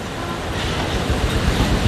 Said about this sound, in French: de l'écume au sommet des vagues. Comme il fait beau, c'est vraiment une vision magnifique. Mais vraiment, c'est une mer un peu déchaînée, quoi.